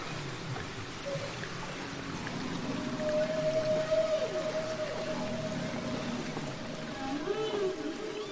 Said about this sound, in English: National Geographic even put out a flexi-disc version of an excerpt of a whale song and distributed that to 10 million subscribers.